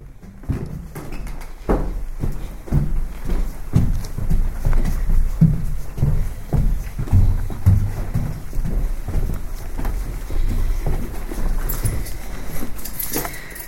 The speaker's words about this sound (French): Aujourd'hui, premier épisode, on monte les escaliers.